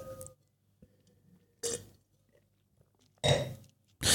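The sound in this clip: Someone drinks the last of a drink: a few short, noisy gulping bursts separated by quiet pauses, faint overall.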